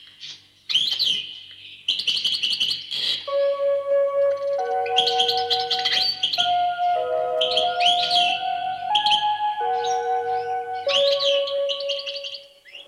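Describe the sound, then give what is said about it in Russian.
Birdsong with bright, repeated chirping phrases, heard through an opened window, loud and steady over sustained low tones throughout, with no talk. “Нет, ты послушай, послушай. Птица поет. Слышишь, как поет?”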